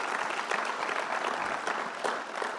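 Applause from a church audience: dense, steady clapping that runs continuously without a break, at a moderate level and with no voices standing out.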